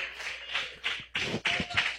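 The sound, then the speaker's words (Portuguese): A church audience clapping their hands, in loud, uneven bursts of many overlapping claps with brief dips between them. “Mais forte as palmas para Jesus, mais forte as palmas para o Senhor”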